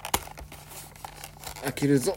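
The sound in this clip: A trading card pack's wrapper is torn open, with a sharp rip and crinkling near the start, followed by talking.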